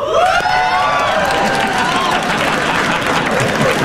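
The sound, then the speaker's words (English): A late-night talk show studio audience cheers and whoops loudly, a dense, sustained crowd roar with high excited shouts that lasts the full four seconds without letting up. “Euphoria from the audience. That's the happiest I've seen a crowd.”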